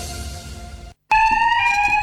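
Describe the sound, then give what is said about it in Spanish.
An alarm sounds in a radio advertisement about protecting sorghum crops. After a brief silence, a loud, steady, high electronic alarm tone rings out continuously. “¿Un sistema de alarma para cuidar tu sorgo?”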